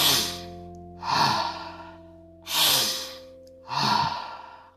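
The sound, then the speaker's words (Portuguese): Intense rhythmic breathing exercise, drawing air in through the nose and pushing it out fast through the mouth: four loud, airy breaths at an even pace, each swelling then fading, over a steady low drone. “nós vamos fazer 30 repetições de uma respiração bastante intensa. Você vai inspirar pelo nariz e vai expirar rapidamente pela boca, fazendo esse movimento.”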